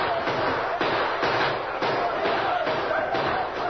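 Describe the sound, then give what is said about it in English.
Rifle gunfire sound effect as a small band fires to hold off attackers surrounding their post at night: many sharp, repeated cracks over a dense, continuous din of shooting. “Open fire and keep firing. It's the only way we can stand them off.”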